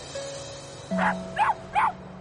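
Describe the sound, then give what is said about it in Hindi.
A cute small city dog gives three short, high-pitched yapping barks in quick succession over a faint steady hum. “शहर वाले दोस्त के पास एक बहुत ही cute सा डॉगी था.”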